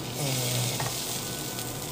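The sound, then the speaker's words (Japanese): Fried eggs and sausages sizzle in a pan for breakfast, a steady, soft crackling hiss that continues unbroken throughout, with no voices. “ウインナーもねそろそろ焼けてきたかなっていう感じ”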